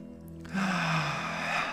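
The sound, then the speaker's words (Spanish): A slow breath in and out during a guided relaxation exercise: a soft, airy rush that swells after a brief quiet start and holds steady to the end, with no talking. “Inhala y exhala una vez más.”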